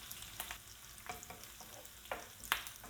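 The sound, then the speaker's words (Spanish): Sliced mushrooms sizzle as they are stirred into hot sofrito for a mountain rice dish with ribs and mushrooms. A quiet, steady frying crackle runs throughout, broken by several scraping stir strokes, with no talk. “Ya vuelve a estar caliente el sofrito y ahora le incluimos las setas.”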